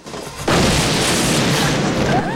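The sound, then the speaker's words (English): A sudden loud boom bursts from a steam locomotive's funnel as the train surges ahead, a sharp onset that swells into a sustained, dense roaring rush of noise. “An explosion from the train's funnel sparks a burst of speed.”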